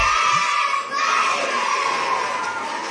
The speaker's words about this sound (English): More screaming, happy screaming, summer screaming, dollar small classic Frosty